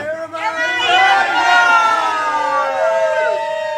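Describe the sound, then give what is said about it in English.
Crowd at an Australian pub veranda by a marina, people enjoying cold drinks, cheering and shouting together in a loud, sustained swell of overlapping voices. “And that was everybody on the veranda of the pub enjoying a cold bevy.”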